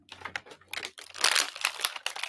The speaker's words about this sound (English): Let's rip into it. Rip into it.